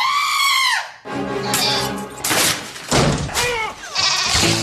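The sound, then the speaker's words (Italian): Goat bleating from a goat that eats Doritos nacho cheese chips in a commercial: a loud, wavering, high bleat opens, followed by a few shorter, rougher bleats mixed with other busy, dense sounds. “avete sentito la capra?”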